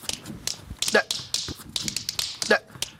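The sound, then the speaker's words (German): Tap shoes strike a hard floor in a tap dance, with many quick, crisp clicks in an uneven rhythm and a few louder accented taps among them. “ich übe hier gerade einen Stepptanz ein. Einen was? Einen Stepptanz. Hier, mit meinen Steppschuhen. Soll ich euch das mal zeigen?”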